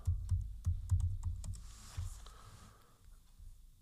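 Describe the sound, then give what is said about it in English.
Faint clicking of keys as a search is typed on a keyboard, a quick run of several taps followed by near quiet. “Search nearby. Type in movie theater movies.”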